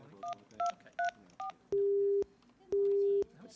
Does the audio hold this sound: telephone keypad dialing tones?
yes

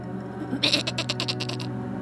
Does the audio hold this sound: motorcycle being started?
no

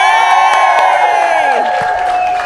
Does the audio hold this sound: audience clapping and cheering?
yes

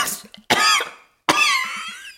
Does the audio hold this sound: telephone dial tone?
no

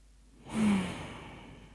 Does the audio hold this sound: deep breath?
yes

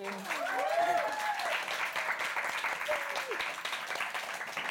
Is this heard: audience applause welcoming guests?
yes

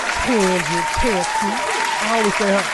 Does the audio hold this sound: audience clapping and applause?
yes

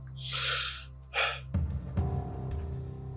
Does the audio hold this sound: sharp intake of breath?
yes

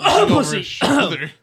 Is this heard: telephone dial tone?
no

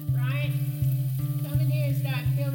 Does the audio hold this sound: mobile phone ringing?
no

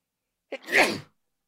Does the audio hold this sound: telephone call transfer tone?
no

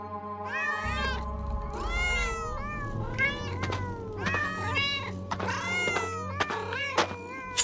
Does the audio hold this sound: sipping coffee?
no

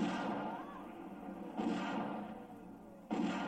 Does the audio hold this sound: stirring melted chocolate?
no

